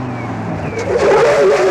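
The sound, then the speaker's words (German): A car brakes suddenly and skids on an access road into Chicago, the engine hum giving way to a loud, rough rush of tyre noise that swells and holds to the end. “Warum bremst du denn, du Idiot?”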